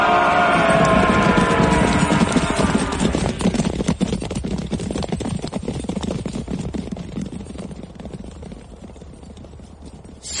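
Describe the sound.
Hoofbeats of horses galloping, a dense, loud drumming of many hooves that gradually eases in volume toward the end.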